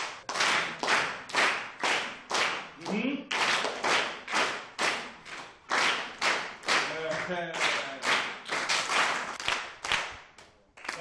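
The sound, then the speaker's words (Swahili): Classroom pupils clap their hands together in a steady rhythmic pattern of many evenly spaced, sharp bursts, with young voices briefly chanting between some of the claps. “Haya, mpige makofi.”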